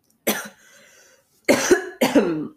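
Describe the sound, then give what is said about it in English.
Coughing after choking on tea: three harsh coughs, the first followed by a quieter raspy breath, the last two in close succession, with no talk. “Excuse me, I choked on the tea.”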